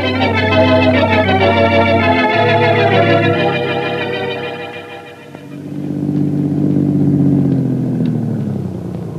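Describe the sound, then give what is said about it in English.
Car driving with a steady, low engine hum that dips briefly in loudness midway, then swells back up and holds. “Hope I didn't take it for too long a drive.”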